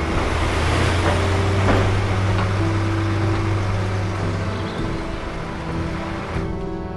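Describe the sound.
A truck drives through an opened gate into a courtyard. Its engine holds a steady, low droning hum with a few constant tones above it, running unbroken and fairly loud for the whole stretch.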